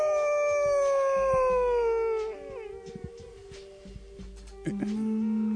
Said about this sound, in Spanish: en cada noche de luna llena, aún es posible oír un aullido que mezcla lo bestial con lo humano.